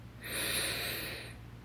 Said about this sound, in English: Take a deep breath in